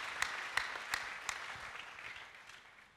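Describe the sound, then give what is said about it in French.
A church audience claps during a bilingual sermon: a few sharp, distinct claps early on give way to softer, scattered clapping that thins out. The clapping is faint throughout, with no talking. “If you are following me, give a clap offering to Jesus. Si vous me suivez, acclamez.”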